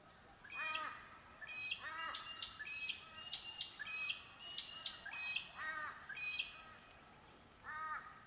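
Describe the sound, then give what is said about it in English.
Bird song: many short, bright chirping phrases repeated in a fairly even rhythm, fairly faint throughout, with brief gaps between bursts. “Then return to the sounds of the bird song.”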